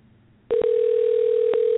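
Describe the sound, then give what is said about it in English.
A telephone tone sounds as a call is placed, starting abruptly and holding as one steady, unbroken electronic note at a single pitch for over a second. “All right, let's go ahead and dial. We are dialing Misha now.”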